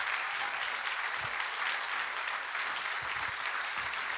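Audience applause greets a pastor arriving on stage at a church gathering: dense, steady clapping from a standing crowd, sustained without a break for several seconds, with no speech over it.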